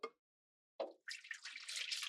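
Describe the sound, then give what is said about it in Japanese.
Hot water is poured out from a hand-drip coffee setup: a brief drip, a short pause, a small splash, then a steady, soft pouring stream. The whole sound is faint. “一旦お湯を捨てます。”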